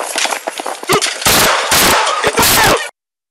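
Gunshots recorded on a police officer's body camera ring out in several loud, harsh, distorted bursts, broken by short gaps, then give way to sudden silence.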